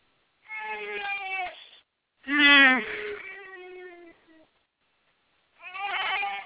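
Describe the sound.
A six-month-old baby cries in three wavering, high, harmonic wails separated by short pauses. The middle cry starts loudest, then trails off.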